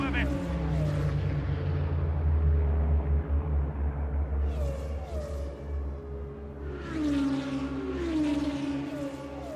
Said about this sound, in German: Noch einmal auf Gas. Die wird im Formel 1 wahrscheinlich im vierten Gang.